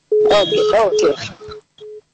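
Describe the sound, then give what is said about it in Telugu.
A telephone line tone as a call cuts off: a steady low tone runs beneath a brief burst of voice, then continues alone as short, separated beeps. “సరే call cut అయిపోయింది.”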